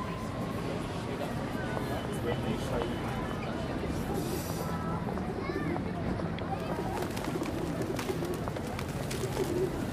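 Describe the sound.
Pigeons coo in the heart of London's West End, with soft, repeated low coos over a steady bed of busy city noise and voices.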